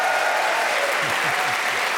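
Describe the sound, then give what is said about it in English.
Full audience applause greets four panellists introduced on a comedy panel game show, a loud, thick and steady roar of clapping that continues unbroken. “Please whoop and cheer for all four of them.”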